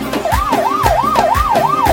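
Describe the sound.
An ambulance siren sound effect played at a wedding celebration, a loud, fast wailing yelp whose pitch swings up and down about five times, with deep rhythmic thumps beneath.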